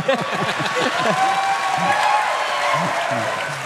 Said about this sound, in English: has applause for God, guys. Yeah, guys. Give it up for God.